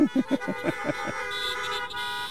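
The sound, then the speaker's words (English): Car horns honking on request at the close of a church service: a quick series of short, pulsing honks followed by a steadier, sustained horn tone. “Honk your horn.”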